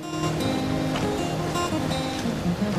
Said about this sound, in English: Back on the boat and accompanied by several others, Viennese cruising upriver again.